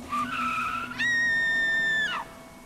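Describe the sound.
Tires screech as a car swerves sharply: a shorter squeal gives way to a louder, higher, sustained shriek lasting about a second, then cuts off abruptly.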